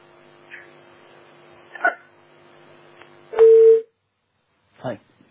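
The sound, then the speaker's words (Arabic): A telephone line is cut off during a call-in, with a steady low tone under a few faint noises. Then comes one loud, short beep, followed by a brief burst of sound. “قطع الاتصال.”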